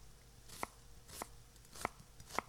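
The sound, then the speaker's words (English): Four crisp knife cuts slicing food thinly, evenly spaced and fairly faint, each a short sharp chop with quiet gaps between and no talking. “Give me your hand. You have to hold the knife like this. Then you can cut thinner.”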